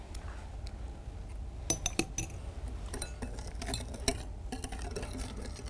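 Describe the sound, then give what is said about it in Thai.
A spoon stirs a mixture in a bowl while a second portion is added bit by bit. Faint scraping runs throughout, with a few light clinks and taps against the bowl. “ค่อยๆเติม ค่อยๆเติมแบบนี้นะคะเติมแบบนี้แล้วก็คนนะคะให้ส่วนผสมเข้ากันก่อนแล้วก็ค่อยเติมลงไปอีกนะคะ”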